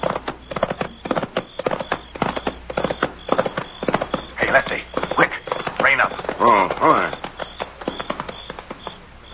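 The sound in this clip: Hoofbeats of horses ridden toward the listeners, a steady clip-clop rhythm running through the whole stretch while people talk over it.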